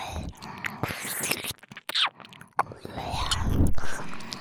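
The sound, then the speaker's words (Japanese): Ear licking: wet, irregular slurping and smacking mouth sounds mixed with breathy whisper-like noises, bursts separated by short quiet pauses. “先生の耳おいしい。いっぱいいっぱい舐めさせて。”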